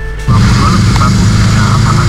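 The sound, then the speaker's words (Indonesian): Loud, steady engine rumble from trucks and cars queuing in a night-time traffic jam at a petrol station in Mondoroko. The drone cuts in abruptly after a short, quieter opening and holds dense and heavy. “Nah, ini ada truk-truk ya. Ada juga mobil-mobil yang sedang mengantri.”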